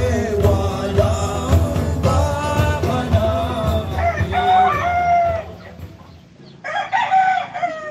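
Roosters crow in a house garden in the Philippines, several loud, drawn-out calls overlapping one another, then a short lull before another crow rises again.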